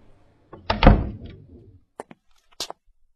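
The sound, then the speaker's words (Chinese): A hospital ward door is pushed open with a dull thud and a brief rumbling swing that fades out, followed by a few faint, sharp clicks. “沉了沉气，推门而入。”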